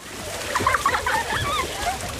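Splashing of a child playing in a swimming pool, a busy run of watery slaps and sprays that continues steadily through the short stretch.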